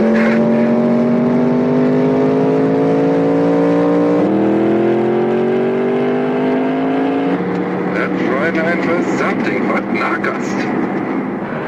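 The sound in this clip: Race car engines rev in a loud, steady drone whose pitch climbs slowly, breaks back twice, then climbs again before turning rougher and noisier at the end.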